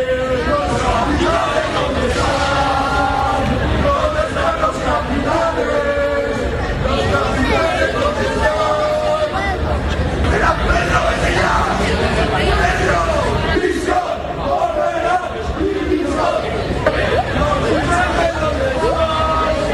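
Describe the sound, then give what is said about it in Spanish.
Valencia football club away supporters chant outside the stadium at Riazor: a loud, continuous crowd of many voices singing and shouting in rhythmic chants, with overlapping chatter underneath. “Son los cánticos de la afición valencianista desplazada hasta Riazor, a la puerta del estadio”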